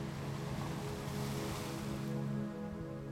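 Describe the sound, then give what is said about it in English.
Ocean waves wash along a beach in a steady, broad rushing roar that stays even and fairly loud throughout, with a slight swell near the end. “In a few minutes, I will return and we can continue this gentle stroll down the beach. For right now, though, take a little while and enjoy the water”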